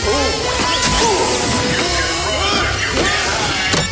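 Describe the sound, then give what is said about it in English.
A glass door smashing as someone crashes through it in an action scene: loud, dense shattering and whooshing impacts that fill the whole moment, with busy effects layered throughout. “crashes through a glass door”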